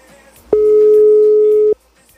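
A telephone tone sounds after a call is dialed and the line is busy: one steady, mid-pitched electronic beep that lasts just over a second and then cuts off, with quiet before and after.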